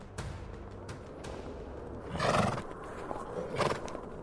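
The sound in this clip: A ridden horse whinnies a couple of times over soft, scattered hoof clip-clops. The sound is fairly faint and free of speech.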